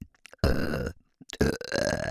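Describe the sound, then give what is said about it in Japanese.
Two long, loud, throaty burps separated by a short silent pause, the second slightly rougher and more broken up than the first. “マジウケる？ゲップどんだけ好きなの？”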